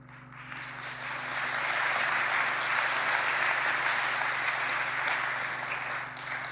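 Congregation clapping during a church sermon, dense and steady applause that holds at an even level for several seconds over a faint low hum.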